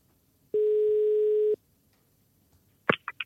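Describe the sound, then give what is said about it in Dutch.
A single steady ringback tone hums on a telephone line as a call is placed: one unbroken, mid-pitched beep lasting about a second, then a pause and a brief voice. “En we gaan Lemya even bellen.”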